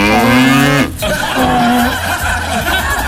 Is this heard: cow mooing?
yes